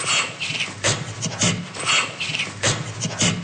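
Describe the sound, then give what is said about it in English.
Gorilla laughter comes in breathy staccato bursts, each a cluster of rapid call elements pressed close together on the exhale, repeating at fairly regular intervals. “Gorilla laughter is more of a staccato-like laughter.”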